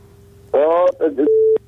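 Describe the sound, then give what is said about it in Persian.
Telephone tones sound as a caller is connected on a phone-in line: a short buzzy harmonic tone, a brief warbling chirp, then a steady electronic beep that cuts off sharply. “یک تماس داریم، تماس میگیریم.”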